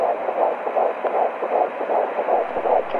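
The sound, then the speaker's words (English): An unborn baby's heartbeat in the womb, heard as rapid, evenly spaced whooshing pulses, fast and steady, each a soft muffled throb over a constant low hiss. “That heartbeat is what an adult heart sounds like, but this is what your heartbeat sounded like before you were born.”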